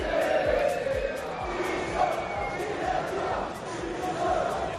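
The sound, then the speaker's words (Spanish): Valencia football fans at Mestalla cheer ironically at their own team, a loud sustained crowd roar with a few swelling surges of whoops and shouts throughout. “La afición está harta, tanto que anoche acabó burlándose de sus propios futbolistas con vítores irónicos.”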